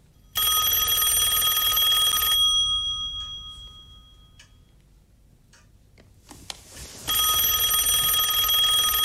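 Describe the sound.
A telephone rings in two long bursts, each a loud, bright, shrill trill lasting about two seconds, separated by a quieter gap holding faint rustling and a few soft clicks.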